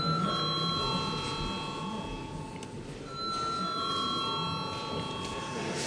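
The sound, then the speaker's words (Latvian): An electric session bell rings in a parliament chamber before a vote, a steady high metallic ringing in two long stretches with a short break in the middle, over faint background noise. “Lūdzu zvanu.”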